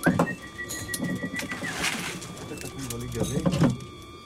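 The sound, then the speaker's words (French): Pigeons cooing, kept by a pigeon fancier: low, throaty coos come in several separate bursts over a steady faint background hum. “Parler aux pigeons, bon, on n'attend pas une réponse, bien sûr, mais bon, on aime leur parler.”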